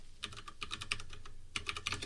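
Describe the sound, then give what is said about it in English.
Typing on a computer keyboard as a domain name is entered on archive.org: many quick, clicky keystrokes in a steady, uneven rhythm, with a few louder taps standing out. “And you type in her domain name.”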